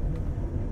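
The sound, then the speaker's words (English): Steady low rumble of an overnight passenger train in motion, heard from the forward compartment on board: a dense, continuous roar with no distinct events, holding an even loudness throughout. “The sound you hear in the background may sound suspiciously like the noises of an ongoing train, and the reason for that is because I'm currently recording this from the forward compartment of an overnight train”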